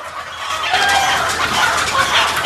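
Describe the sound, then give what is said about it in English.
White chickens flap inside a wire cage in a large, dark room. They make a dense, continuous fluttering rush with some clucking mixed in, and no talk. “In a large, dark room, a man pulls flapping white chickens from a wire cage.”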